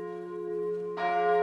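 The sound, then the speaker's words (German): Church bells ring from the Gothic tower of a Catholic church in a Palatinate town, a sustained, humming peal that swells with a fresh strike partway through. “Die Glocken läuten vom gotischen Turm der katholischen Kirche St. Mauritius im pfälzischen Rülsheim.”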